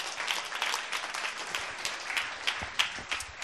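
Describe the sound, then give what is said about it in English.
Audience applause, a dense and even patter of many hands clapping, fairly quiet and steady throughout, with no talking over it. “Thanks, man. Let's give him a hand.”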